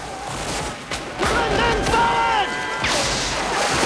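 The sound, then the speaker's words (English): Volleys of rifle gunfire as Confederate soldiers lining the top of a moat's bank fire down on men below, sharp bursts repeating irregularly amid loud shouting and yelling voices. “Robert leads his men down into the moat, but the Confederate soldiers line the top of the opposite bank and fire down at them.”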